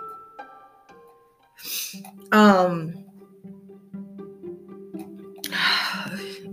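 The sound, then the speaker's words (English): Someone clears a dry, tickly throat with a few rough, rasping bursts, one of them briefly voiced. The bursts come over a soft, sustained tonal background. “excuse me. I'm having like that dry throat where that you get that tickle. So please bear with me.”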